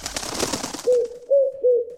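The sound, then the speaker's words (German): A dove flaps its wings in a rustling burst, then gives three low, soft coos in a steady rhythm once the flapping stops. “Das ist es, unser Ticket-Täubchen, das gurrt und flattert.”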